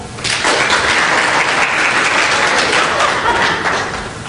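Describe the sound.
An audience applauds to vote for a preferred music genre, with loud, steady clapping for about four seconds before tapering off.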